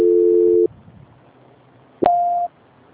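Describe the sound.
Telephone line tones play while a call is transferred: a steady low tone holds for over half a second, then after a stretch of faint line hiss a click and a shorter, higher tone follow.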